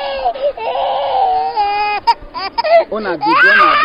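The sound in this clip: Babies crying during a women's football match, their mothers playing: a continuous, loud stretch of wavering infant cries with sliding, whimpering pitch and short breaks between wails.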